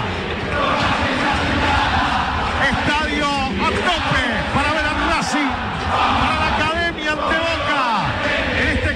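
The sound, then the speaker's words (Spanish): Racing Club football fans roar in their stadium in Avellaneda, a dense, sustained wall of crowd noise with surging shouts, while a commentator talks over it. “Se levanta el público de Racing aquí en Avellaneda.”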